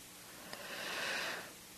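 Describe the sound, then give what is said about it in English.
A deep breath drawn during a spiritual talk: a soft, airy rush that swells and fades over about a second. It is faint and comes just after a tiny click. “And take a breath.”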